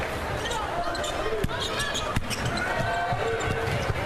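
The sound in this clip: Basketball dribbled on the court during a women's basketball game: a few sharp, isolated thumps that stand out briefly above a dense, steady crowd murmur.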